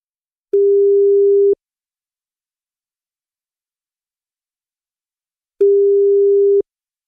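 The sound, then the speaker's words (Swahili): Telephone ringback tone on a call line: two steady, low-pitched electronic tones, each lasting about a second, separated by roughly four seconds of silence, with no voices. “The telephone has entered. Shika simu.”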